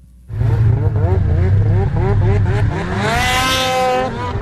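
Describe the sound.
Snowmobile engines racing at a winter event in Hayward, Wisconsin, give a loud, continuous whine that repeatedly rises and falls in pitch as they rev, ending in a higher, steadier scream.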